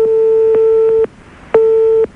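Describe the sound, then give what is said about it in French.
Telephone ringback tone of a call ringing unanswered: two bursts of a steady mid-pitched tone, the first about a second long and the second about half a second, separated by a short gap and marked by faint clicks. “ça sonne dans le vide”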